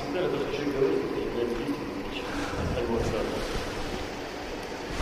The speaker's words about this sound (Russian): шторм. Люблю шторм.